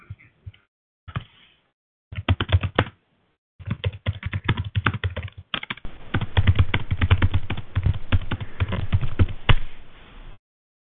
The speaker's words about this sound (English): Just type in your question